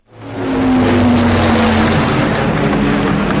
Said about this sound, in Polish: Jak przekonał się nasz wysłannik Adam Dąbrowski, największą niespodzianką był uroczysty przelot współczesnego samolotu z pobliskiej bazy RAF.